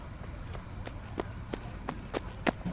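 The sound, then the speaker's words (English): Running footsteps of a young kid coming up, a quick, steady series of light thuds that grows somewhat louder toward the end. “Some young kid with a shaved head ran up.”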